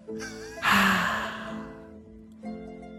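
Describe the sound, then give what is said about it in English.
A single audible breath taken during a brief meditation: a sudden airy rush that swells and then fades over about a second and a half, with short voiced tones just before and after it. “Breathe in, and then breathe out. Allow your anxiety to go out on the exhale.”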